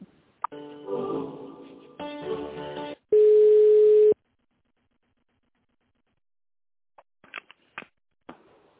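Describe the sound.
A telephone line tone sounds while an office call is transferred: about three seconds of harsh, buzzy line noise, then a single steady tone lasting about a second, followed by silence and a few faint clicks.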